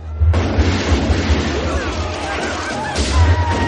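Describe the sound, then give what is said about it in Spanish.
Rifle gunshots ring out in a western battle scene as mounted Sioux warriors fire on attackers, with heavy bursts near the start and again near the end, buried in dense, continuous battle noise under a narrating voice. “Los Sioux apuntan sus rifles y disparan.”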